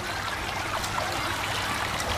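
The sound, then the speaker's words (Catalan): Water pours in a steady, continuous stream to rinse a minor wound on a girl's back, a soft, even splashing trickle with no talk over it. “No és greu, però hauríem de rentar-ho amb aigua perquè no se t'infecti.”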